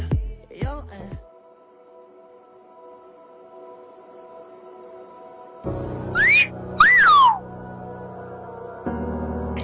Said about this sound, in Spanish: puse ese silbidito